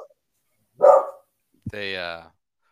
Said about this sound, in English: Hey, there's the dog.